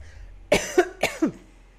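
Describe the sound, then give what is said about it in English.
Four short, dry coughs come in two quick pairs from a person with a tired throat. Each is a sharp burst, clear and fairly loud against a quiet background. “I hope editor cuts this coughing out, because I don't know why I'm suddenly coughing.”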